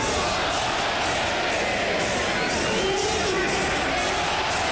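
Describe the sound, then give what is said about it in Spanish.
A bullfight crowd in Mexico roars along with a matador's muleta passes, a loud, unbroken wall of cheering and chanting that lasts throughout. “Más de 100 muletazos fueron coreados por el público.”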